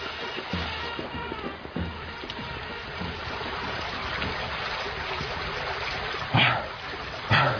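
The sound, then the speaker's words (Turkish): A radio-drama water effect of people swimming to shore: continuous sloshing, churning water, with two louder splashes near the end. “Bak kıyı yakın, oraya doğru yüzeceğiz.”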